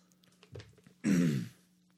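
A single short, rough throat clearing after something catches in the throat. It comes in one loud burst, preceded by a fainter breathy sound.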